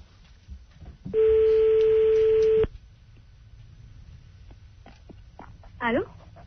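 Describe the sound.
A telephone tone as a call is being placed, a steady, loud, flat hum lasting about a second and a half, followed by a quiet stretch and a short warbling tone near the end.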